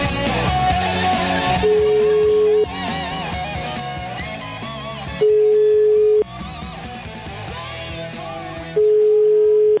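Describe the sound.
A telephone ringback tone for an outgoing call sounds as three steady, mid-pitched one-second tones, repeating about every three and a half seconds over continuous background music.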